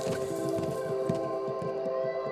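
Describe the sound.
Newborn animal's cry played over a large speaker in a field during a deer playback experiment, a sustained tonal wail with a steady, unbroken level throughout.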